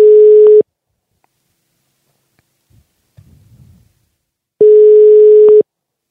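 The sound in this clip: A telephone ringback tone sounds while a call is being placed: two steady, low-pitched tone bursts separated by a long silence, with only a faint low rustle in the gap.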